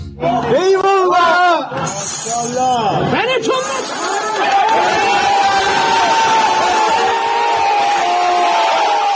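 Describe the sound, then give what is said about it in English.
A loud crowd of protesters in Iran chants and shouts in unison. Rising and falling massed voices fill the sound without pause. “Well, that is the sound of protests raging in Iran following the death in custody of a 22-year-old woman”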